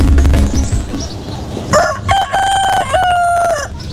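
A rooster crows in one long, drawn-out call with several tonal segments, loud and clear in the second half, after a muffled, noisy stretch at the start.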